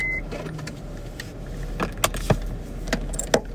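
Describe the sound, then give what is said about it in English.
Keys jingle as a key goes into a minivan's ignition and the emergency brake is released, giving a few sharp clicks and rattles over a steady low hum. “Brenda Sanders sat in the driver's seat of the minivan and slid the key into the ignition.”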